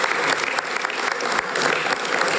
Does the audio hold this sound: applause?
yes